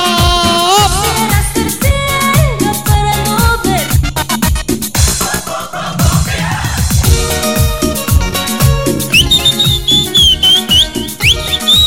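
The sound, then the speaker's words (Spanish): People whistle a shrill, high melody over a loud, pounding Latin dance track. The whistled tones rise clearly above the steady beat in the final seconds. “La gente que sabe silbar.”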